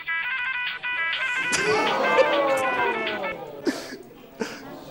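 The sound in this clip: A telephone ringtone plays from a film shown to a class, a repeating electronic tone pattern over the first few seconds, with voices overlapping and continuing after it stops.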